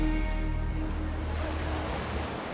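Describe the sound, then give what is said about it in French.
Mediterranean Sea waves wash ashore at Menton in a steady, even surf with a broad noise that holds level throughout, with no voices over it. “je suis à Menton, vous entendez peut-être derrière moi la mer Méditerranée.”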